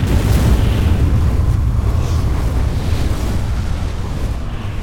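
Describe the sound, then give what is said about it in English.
A deep, sustained roaring rumble of a spaceship exploding into a ball of blue flame, loud and broad throughout with no sharp onset, slowly easing near the end. “The unshielded Exemplar exploded into a ball of spectacular blue flame, instantly killing everyone aboard.”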